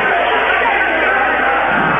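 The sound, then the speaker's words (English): Crowd ovation at a basketball game in an arena as a substitute player checks in, a loud, continuous roar of cheering and clapping that holds steady. “number 15, Kyle Francis, will relieve Bruns, and he'll get a good ovation here from the crowd at the hangar.”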